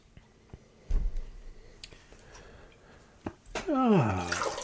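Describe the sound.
Water rinsing a beer glass between beer tastings: a few soft knocks and clicks, then a sudden louder gush and splash of running water toward the end.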